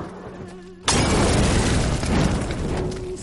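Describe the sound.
A Molotov cocktail bursts into fire against a police station facade: a sudden sharp whoosh of ignition, then a loud, steady roar of flames that lasts to the end.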